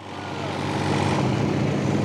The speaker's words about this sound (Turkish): Hadi bir deneyelim. Jeneratörü çalıştırıyorum.